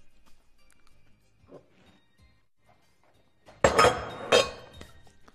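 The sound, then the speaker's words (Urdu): A lid closes onto a frying pan while an omelette cooks: two sharp metallic clinks close together, following a quiet stretch with faint kitchen rustles. “اب pain کا ڈھکن بند کر دیتے ہیں تاکہ omelette پھول جائے۔”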